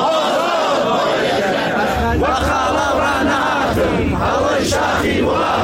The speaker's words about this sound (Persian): شعارهای فرهنگیان در شهرهای ایران.